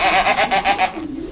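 Goats bleating on a dairy goat farm: a loud, quavering bleat that pulses in quick waves, then fades to quieter sounds.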